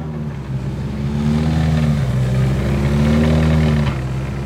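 A car accelerating hard on cold tyres, its loud, continuous engine roar swelling steadily throughout with no voices.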